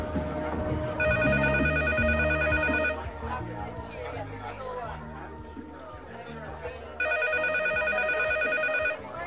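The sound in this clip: A telephone rings in two long bursts of a warbling electronic ring separated by a pause, with people talking throughout underneath.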